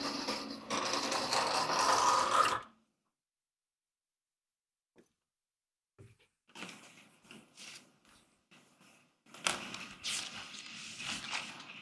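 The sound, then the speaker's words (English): Writing being erased, scratchy rubbing strokes in a sustained burst, then a quiet pause followed by further irregular rubbing strokes. “Well, I would prefer to erase this.”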